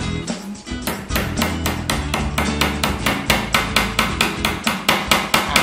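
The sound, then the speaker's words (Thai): Hammer blows drive a nail in to make a pilot hole for mounting hooks. Many sharp, evenly spaced strikes ring out in a steady rhythm, loud and alone. “แต่ก่อนอื่นคือเราต้องนำร่องด้วยตะปูก่อน”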